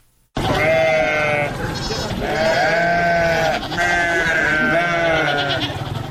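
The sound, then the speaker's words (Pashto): Goats of the Indian Gulabi breed bleat on a small farm in Kandahar, several loud, wavering bleats overlapping almost continuously with no pause between calls. “د کندهار پټن ولسوالۍ کې د بزو یا وزو په دې کوچني فارم کې د ګلابي په نوم هندستاني نسل چلويش بزې ساتل کیږي.”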